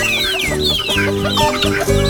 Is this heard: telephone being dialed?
no